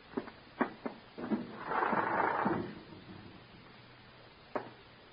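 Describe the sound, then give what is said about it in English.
A window being opened for a breeze: a few sharp wooden clunks lead into a sustained grinding scrape as the frame slides, then a lone knock after a short pause, with no voices. “Go ahead, open the window.”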